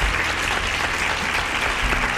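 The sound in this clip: Studio audience applause at a quiz show, steady, dense clapping at an even, fairly loud level from start to finish of the short burst.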